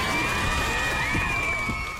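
Crowd cheering and whooping, a dense, steady roar that holds at an even level for two seconds, with thin whistle-like tones running above it.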